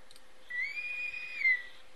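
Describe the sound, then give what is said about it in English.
A high, steady whistle tone signals the end of a show. The single sustained note begins after a short pause, lifts slightly just before it cuts off, and sits over a faint constant hum. “That's our whistle, guys. That's telling us that we got to get out of here.”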